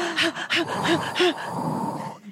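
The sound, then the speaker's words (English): A person takes deep breaths: four quick, noisy gasping inhalations with a faint voiced edge, then a longer, steady breathy sound that fades out at the end. “deep breath, deep breath.”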